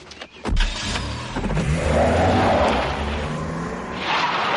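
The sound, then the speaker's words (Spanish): A car starts and drives off. After a sharp onset, a low engine rumble sets in and holds with a broad, rushing swell, which brightens again near the end. “Entra en su coche y arranca.”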